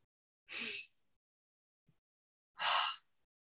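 A group taking a deep breath together: two faint, airy breath sounds separated by a quiet pause, with no talking.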